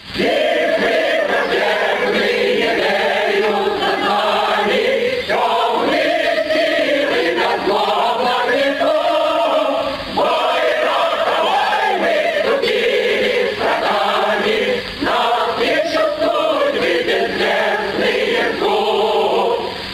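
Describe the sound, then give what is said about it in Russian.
A rare archival recording of the revolutionary song "Varshavyanka", sung by many voices in a steady, rousing march. The sound is dull and muffled, lacking high tones, and stays at an even loudness throughout. “Вот как звучит эта песня в редкой архивной записи «Варшавянка».”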